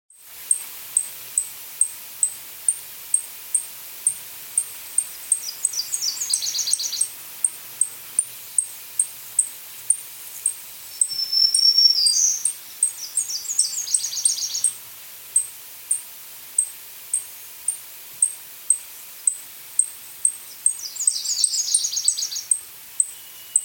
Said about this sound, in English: Dunlin.